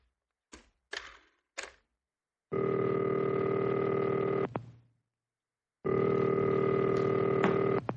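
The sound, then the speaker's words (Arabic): A telephone rings unanswered in a radio drama: a few short clicks, then two long, steady ring tones of about two seconds each, separated by a pause of silence. “كنت عايز أسأله على حاجة بس ما حدش بيرد. حضرتك عايز التليفون؟”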